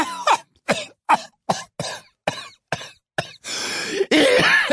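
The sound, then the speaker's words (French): A woman in a fit of coughing: eight sharp, dry coughs in a quick, irregular run, followed by two longer, rasping, wheezy bursts, loud and with no talk. “Elle se laissa tomber dans son fauteuil en proie à une quinte de toux”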